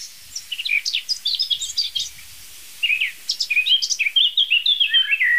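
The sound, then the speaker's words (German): A Eurasian blackbird sings from a freestanding oak in two bursts of varied, high, warbling phrases separated by a brief pause. The notes come in rapid, shifting runs, fairly faint and alone. “der über uns rauschenden Eiche, schöne freistehende Eiche, gibt sich die Amsel von ihrer virtuosesten Seite.”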